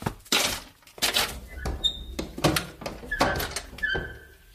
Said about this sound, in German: aber ich werde die Balkontür öffnen. Ein bisschen frische Luft wird ihm gut tun.